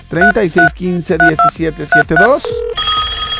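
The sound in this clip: Touch-tone dialing of a phone number. A voice talks at first, then a short dial tone sounds, followed by a steady ringing telephone tone at the end.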